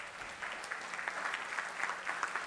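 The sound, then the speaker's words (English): Faint sympathy applause from an audience, a soft, steady patter of many clapping hands that lasts the whole stretch. “that's a sympathy clap for my wife, isn't it?”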